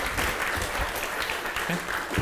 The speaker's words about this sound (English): So give them a big round of applause.